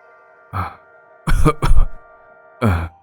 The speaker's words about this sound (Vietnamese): Thì đột nhiên có tiếng người đàn ông bên ngoài ho khụ khụ mà nói vọng vào trong.